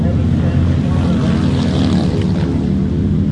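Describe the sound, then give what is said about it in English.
Britten motorcycles race at Ruapuna Speedway in Christchurch during an intergenerational race meet. Their engines make a loud, continuous roaring drone that holds steady throughout. “drawn by the buzz of the Britain bikes and the camaraderie offered at this intergenerational race meet”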